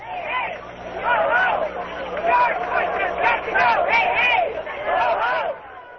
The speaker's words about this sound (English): Those are protesters in New York Saturday marching for reproductive rights.